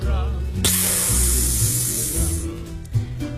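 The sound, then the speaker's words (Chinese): Valves moving on a capsule pod let out a hissing suction of air. A bright, sustained hiss starts abruptly and lasts about two seconds over a low, rumbling mechanical background before cutting off. “旁边的胶囊舱传出阀门活动的抽气声”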